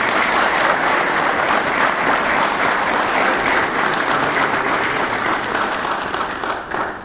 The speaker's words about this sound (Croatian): Ja vas molim još jednim aplauzom da nagradimo sve naše vakife.